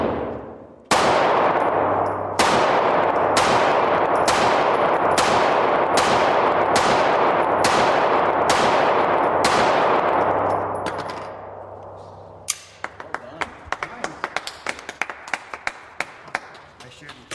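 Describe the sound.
Gunshots at a shooting range: a long, evenly spaced series of loud, booming shots, each with a ringing tail, is followed by a rapid run of many sharper, much fainter cracks.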